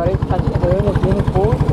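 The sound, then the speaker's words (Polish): A boat engine chugs in fast, regular pulses as the boat pulls up to a high shore, steady and fairly loud, with a voice talking over it throughout. “Dopływamy. O. Już silnik wyłączony.”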